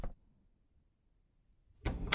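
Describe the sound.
A door being opened, heard as a brief burst of rattling noise at the very end after near silence, with only a faint short sound at the start.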